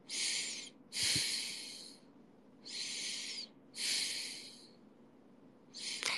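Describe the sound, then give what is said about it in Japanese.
Breathing through a stuffy nose: five hissing, slightly whistling nasal breaths in a slow, even rhythm, the last one cut short, with quiet pauses between them. “最近口呼吸しちゃうから鼻呼吸しないといけない。まあ、鼻呼吸すると鼻が詰まるんだよね。”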